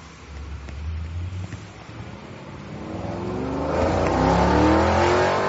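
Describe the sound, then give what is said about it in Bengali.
A car drives off, its engine revving up with a rising pitch and growing louder and rougher as it accelerates. “গাড়ি চালিয়ে চলে গেলেন হেভারসন।”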